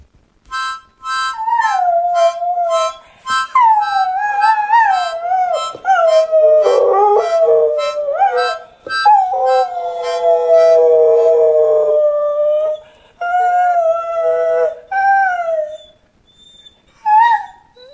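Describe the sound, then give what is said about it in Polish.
A dog howls along to harmonica playing in long, wavering, sung-out howls that glide up and down in pitch, loud and clear, broken by short pauses and ending in a few briefer cries. “To jest Yuki, pies Józka Niewiarowskiego, znanego państwu z materiałów reporterskich Zapraszamy do Trójki. I Yuki za każdym razem, kiedy Józek gra na harmonijce, tak właśnie wyje.”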